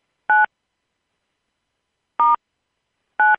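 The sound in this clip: Three short telephone keypad tones are pressed to stop a conference call recording. Each is a clean electronic beep, and they are separated by unevenly spaced silences.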